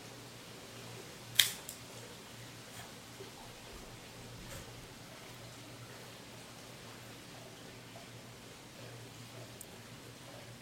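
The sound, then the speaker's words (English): A cigar snipped with a Cassetti multi-cutter V-cut, one sharp, brief click against faint hiss, followed by near silence with a few tiny rustles. “Let's give it a cut using the Cassetti multi-cutter V-cut.”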